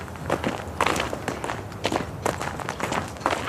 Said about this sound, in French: J'ai l'impression qu'on marche au pas qu'eux marchaient.